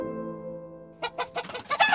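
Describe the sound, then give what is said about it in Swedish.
Hens cluck in a quick run of short, bright calls on a slushy spring street in 17th-century Stockholm, coming in after about a second of steady, sustained tonal drone. “Några höns flaxar undan för en kärra som skramlar fram i vårslasket.”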